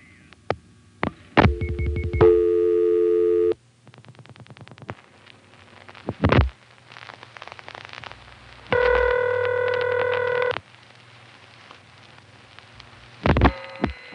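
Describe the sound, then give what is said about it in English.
Telephone line sounds while dialing the operator on an old exchange: scattered clicks and thumps, with a couple of sustained multi-tone line signals between them. No voices are heard. “Let's dial operator and ask what codes are local.”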